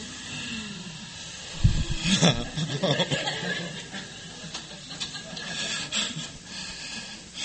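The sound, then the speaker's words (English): An audience breathes in and out together, a soft, sustained rush of many breaths that swells and then eases, with scattered chuckles. “So will you guys breathe with me one time?”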